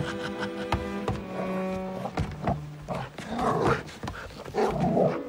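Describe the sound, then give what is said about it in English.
A dog digs in its heels against a leash as it is dragged along. Strained tonal whines open the scene, then give way to rough, uneven growls and scuffling noises. “White Fang digs his heels in and resists. Curtis pulls hard on the leash and drags him along.”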